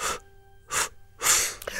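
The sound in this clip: Three short, sharp breaths drawn in, part of a breathing exercise. Each one is a brief, breathy rush of air with a gap between them, and a small trailing sound follows the third.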